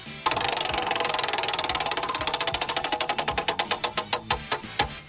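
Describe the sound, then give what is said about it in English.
A spinning prize wheel clicks in a fast, even rattle that gradually slows, the sharp ticks spacing farther apart until the wheel nearly stops. “spin that wheel. There we go.”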